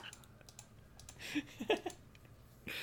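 Quiet typing on a computer keyboard as an answer is entered during a quiz game. Scattered light key clicks come in uneven bursts at low volume.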